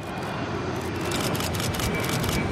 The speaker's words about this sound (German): Ja, jetzt startet hier ein EasyJet A320 nach Faro, wahrscheinlich mit ein paar Urlaubsgästen, die jetzt schön die Sonne genießen.